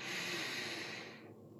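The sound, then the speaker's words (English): A single slow, relaxing breath, a loud airy hiss through the nose that holds steady, then fades and softens toward the end. “So I'm going to breathe.”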